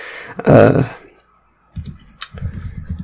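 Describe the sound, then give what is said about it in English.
Typing a search on a computer keyboard: after a short loud burst, a quick run of crisp, uneven key clicks fills the second half, with a brief pause between two runs. “So, one thing I'm going to take a look at here, I'm just typing it in now.”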